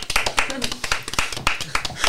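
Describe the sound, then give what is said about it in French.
Sparse applause from a small group of three people: many uneven, distinct hand claps in an irregular rhythm, with voices audible underneath. “Ils sont maigres, les applaudissements venant de la droite, parce qu'elles sont que trois.”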